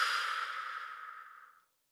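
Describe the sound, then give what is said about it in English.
A long breath blown out through the mouth as part of a breathing exercise, a steady airy rush that gradually fades to silence, with no talk. “Do that again, in through your nose. And out through your mouth.”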